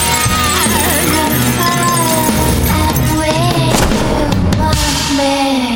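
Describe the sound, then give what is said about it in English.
Machine-gun fire in a film fight as a woman shoots at a demon: loud, dense, continuous bursts of shots mixed with shifting tonal sounds. “The demon backflips away from Gretel, trying to escape her machine gun's bullets.”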